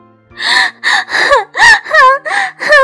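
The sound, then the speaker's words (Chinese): A voice imitates a caterpillar crying in a picture-book story: a rapid run of loud, wailing sobs in short bursts, each with a wavering, falling pitch. “毛毛虫看见它的样子，哭了起来。”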